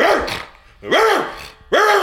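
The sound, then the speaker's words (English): A person imitates a big dog barking, giving three loud, deep, rough barks spaced about a second apart. “Okay, well, do you want a big dog or a little dog? Big dog is so loud.”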